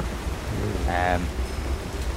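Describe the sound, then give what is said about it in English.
Torrential rain pours straight down on an island, dousing a small campfire outside: a dense, steady hiss with no breaks, and a brief voice rises over it midway. “The small fire outside, the campfire, is quickly doused as torrential rain just doesn't even come from the left or the right, it just comes straight down.”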